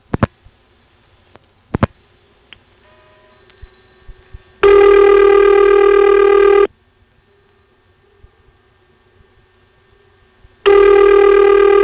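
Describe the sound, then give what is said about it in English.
Two long, loud telephone ring bursts from the Ladysmith exchange, each a steady buzzing tone, separated by a pause of about four seconds and preceded by a few sharp clicks on the line. “But all we have to do is call back to Ladysmith from here, and there it is. Here's a Ladysmith ring.”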